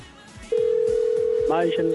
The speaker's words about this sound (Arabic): خلينا يلا لحظه نتصل. ضرب الله خط. والله يرد مفتوح.